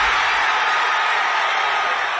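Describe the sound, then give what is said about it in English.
Fans cheer as England reach the last 16 of the World Cup after a match against DR Congo, a dense, steady roar of crowd noise that holds at the same loud level throughout, with no single voice standing out. “Cheers of joy as England make it through to the last 16 of the World Cup.”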